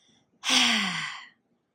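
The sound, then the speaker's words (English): A big, deliberate exhale during a guided breathing exercise pushes all the air out in one long, loud, breathy sigh lasting just under a second, alone and without talk. “we're going to take a big exhale, let all the air out.”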